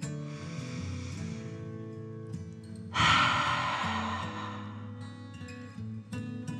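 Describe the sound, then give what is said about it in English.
A slow, deep breath drawn in through the nose and let out through the mouth. The exhale is a soft, audible sigh that swells and then fades, over a gentle sustained tone. “Take a slow, deep dragon breath in through your nose and out your mouth.”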